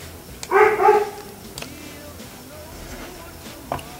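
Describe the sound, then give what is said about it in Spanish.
A neighbour's dog barks in a city setting: one short, loud burst of a few sharp barks near the start, then quiet background for the rest. “es un perrito que está aquí al lado, aquí un perro vecino que se pone a ladrar de repente cuando hacemos las transmisiones acá”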